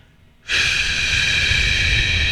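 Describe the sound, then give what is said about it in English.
A slow exhale after holding the breath: a steady, airy hiss that starts abruptly after a brief quiet moment and continues evenly to the end. “breathe in through your nose for 4 seconds, hold it for seven, and then slowly exhale”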